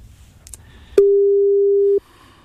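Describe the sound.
A telephone call tone sounds as one steady, pure mid-pitched beep lasting about a second, loud and alone after a few faint clicks.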